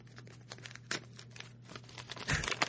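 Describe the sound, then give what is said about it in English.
A paper envelope being torn open in a series of short ripping and crinkling bursts, fairly faint, with a louder, fuller tear near the end. “Very dramatic opening of the envelope.”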